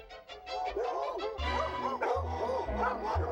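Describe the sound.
Many overlapping dog barks, yips and whimpers fill a cartoon scene of a city overrun by dogs, loud and continuous, with a low steady backing beneath.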